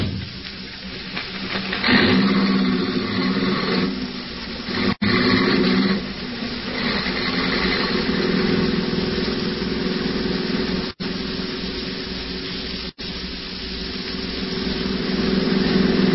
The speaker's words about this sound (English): I hope you don't mind me driving so fast. I'm in a terrible hurry.